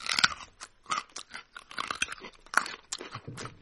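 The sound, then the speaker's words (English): Crisp, crunchy chewing of raw local Iowa carrots eaten in February: many irregular bites and crunches, loud and snappy, with short pauses between chews and no talking. “This is a real live sound effect. We are eating carrots. In February. Local Iowa carrots.”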